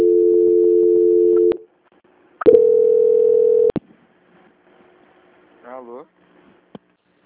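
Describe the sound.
Telephone line tones sound during a bank call transfer: two long, steady, loud tones separated by a short silence, followed by a brief warbling tone and a final click.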